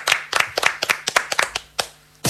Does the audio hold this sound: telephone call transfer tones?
no